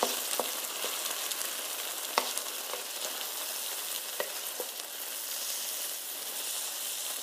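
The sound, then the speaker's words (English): Eggs frying in a pan for fried rice, a constant soft sizzle and hiss with a few faint clicks scattered through it, quiet and steady with no talk. “Oh my goodness, my eggs have such a beautiful like brown char on the bottom. I've just flipped them in the pan.”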